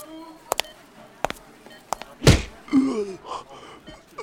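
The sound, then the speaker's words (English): A punch to the throat lands as a single heavy thump, followed by strained gasping vocal sounds. A few sharp clicks come before the blow. “Well, the guy just totally got throat punched.”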